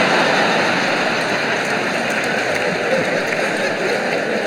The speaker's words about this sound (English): Well, just try flushing it again and if it doesn't work...